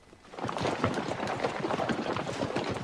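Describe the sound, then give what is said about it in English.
Hooves of a troop of cavalry horses ridden two abreast along a narrow path through dense woodland, a quiet start giving way to a busy, irregular clatter of many hoofbeats that keeps on steadily. “Horses. The band of Yankees ride their horses two abreast along a narrow path through the dense woodland.”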